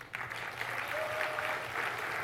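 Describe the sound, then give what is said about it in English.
Audience applause from attendees at a developer conference talk, a dense, steady clatter of many hands clapping that holds for about two seconds without any voices over it. “let's give Brian a round of applause.”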